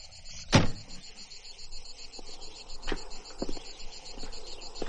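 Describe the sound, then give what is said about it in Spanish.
A car door slamming shut: one sharp, solid thud early on, then a steady high insect chirping with a few faint clicks. “Cierra la puerta del coche y camina hacia los árboles.”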